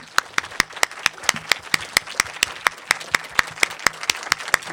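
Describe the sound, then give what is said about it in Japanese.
Audience applause greets a film producer as he comes on stage at a Japanese meet-the-filmmaker event for Frozen. The clapping is a long run of sharp, evenly spaced claps at a steady, brisk rhythm, sounding almost in unison. “大きな拍手でお迎えください”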